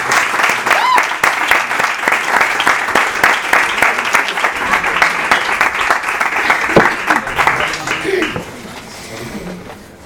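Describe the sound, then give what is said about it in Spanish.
Audience applause at a live literary reading, as performers are called up to read a story together. Dense, continuous clapping holds steady for about eight seconds, then drops away to a quieter tail. “Fuerte aplauso para Daniel.”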